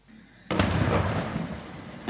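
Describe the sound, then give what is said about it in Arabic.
Israeli shelling strikes around Wadi Salouq and Haris in southern Lebanon: a sudden loud blast breaks in after a quiet start and rolls into a long rumbling decay, with a smaller crack near the end. “من جديد، الجنوب اللبناني تحت النار، قصف إسرائيلي يطال حول ووادي سلوق وحاريس، دخان هنا يتصاعد من محيط البلدات.”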